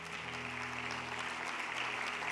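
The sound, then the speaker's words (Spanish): Applause from a church audience, a dense, steady clatter of many hands that fills the whole stretch at an even loudness. “Dale un aplauso a Él si lo crees.”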